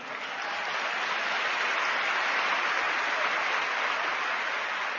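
Audience clapping fills a live program as the crowd responds to a call for loud applause. The sound is steady, dense and even for about five seconds, with no voices on top.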